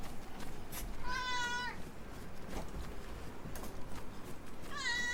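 Cat meowing: two drawn-out, wavering meows a few seconds apart, rising clearly above a steady, rough background noise.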